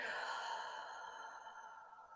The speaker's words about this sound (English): let's take one last really deep breath, the deepest breath you've taken all day, before we say farewell. Inhale. Hold it at the top for a moment. And let it go.